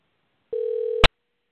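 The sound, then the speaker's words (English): A telephone line ringing after a call is dialed: one steady buzzing tone of about half a second, cut off by a sharp click, with no voices. “Well, I hit the button, but we are also on Blog Talk Radio, so it just says dialing. Huh. Oh, there it is. I hear something.”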